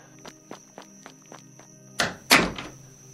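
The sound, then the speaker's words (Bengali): Soft knocking on a door at about eight at night: six light, evenly spaced taps, followed by two louder, rougher bursts of sound. “দরজায় একটা শান্ত টোকা পড়ল”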